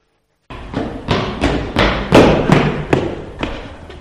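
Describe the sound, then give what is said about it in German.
Footsteps of a person running across a courtyard: a quick, even series of firm thuds that peaks in loudness midway and then fades slightly, heard alone. “Boah, da hat es aber jemand eilig. Eine Person ist im Hof gerannt.”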